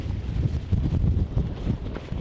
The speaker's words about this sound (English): Well, one bird back, and the wind is back too.